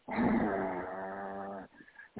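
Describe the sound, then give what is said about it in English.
A human voice imitates a snarling growl: one sustained, rough, low vocal snarl lasting about a second and a half, followed by a brief breathy catch. “in my ear, I started hearing like a snarl, like growl, like,”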